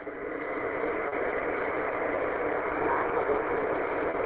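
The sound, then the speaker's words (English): Car engine running during a commute to work, a steady low droning hum that stays at an even level throughout, with no voices over it. “I just hopped in the car on a little commute to work and heard the net going on”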